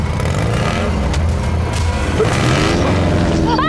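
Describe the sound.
A motorcycle speeds away during a street chase after a bag is snatched, its engine a loud, dense, steady roar that fills the whole stretch without a break.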